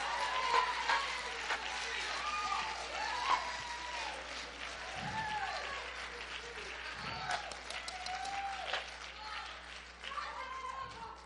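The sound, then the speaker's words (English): Congregation clapping hands in praise at a ladies' church conference, a sustained, fairly even patter of claps with voices calling out over it throughout. “Give the Lord a big hand clap of praise.”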